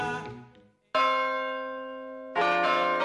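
A church bell rings in slow strokes: the fading tail of one ring, then two fresh metallic clangs. Each has a long, sustained, slowly decaying hum, and the final strike lands loud over the previous ring.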